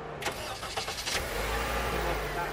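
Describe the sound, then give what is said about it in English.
A Honda Civic natural gas vehicle starts outside a showroom in Marin County: a short run of rough cranking bursts gives way to a steady, low mid-pitched engine idle hum. “Take, for example, this Honda Civic outside a showroom in Marin County.”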